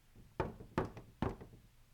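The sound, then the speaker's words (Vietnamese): Three sharp knocks on a room door, evenly spaced and fairly loud, each a short hollow thud with a brief ring. Nothing else is heard. “ngoài cửa phòng đột nhiên vang lên tiếng gõ cửa.”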